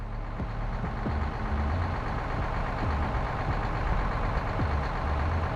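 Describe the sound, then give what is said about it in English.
A deuce and a half military truck engine runs with a steady, loud low rumble and a few faint clicks. “Doc Skofield looked over at his captain, sitting in the cab next to him as he worked the gears. Tell me again how you found a deuce and a half between New Reno and here.”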